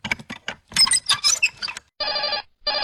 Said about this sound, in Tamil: அட, இது என்ன போன் அடிக்குது வீட்டுக்குள்ள?